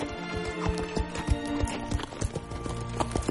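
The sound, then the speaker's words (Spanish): Hooves clip-clop steadily as riders on horseback move off along a road, a rapid run of many hoofbeats continuing at an even pace throughout. “Los jinetes se marchan.”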